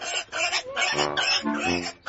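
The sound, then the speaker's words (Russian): A pig squeals loudly in a field, giving a continuous run of harsh, high, grunting squeals that lasts about two seconds. “Вдруг с поля донесся громкий визг.”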